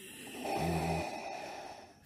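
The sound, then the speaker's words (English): A voice imitates a wheezing breath with one short, low, nasal rasp that sounds somewhat like a snore. It is faint and lasts under half a second, with quiet room hush around it. “Last night the wheezing came back, like Mm.”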